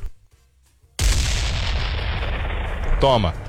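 A bomb explosion sound effect slams in abruptly after a quiet opening, becoming a dense, loud, rumbling roar that stays strong to the end, with a brief warbling tone cutting through near the finish.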